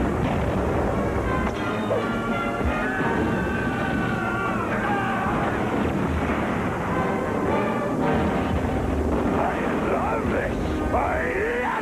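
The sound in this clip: Cannon blasts and gunfire from a pirate action-adventure movie trailer, with dense, continuous booming and rattling shots and voices shouting over the din throughout.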